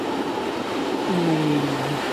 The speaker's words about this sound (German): Immerhin sind es hier zwei Züge gleichzeitig. Gleichzeitig gekommen, gleichzeitig gegangen.